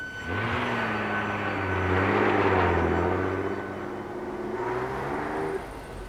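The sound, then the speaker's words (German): A car drives away with a steady, moderately loud engine drone that swells slightly midway and then drops off near the end. “Sie fahren davon.”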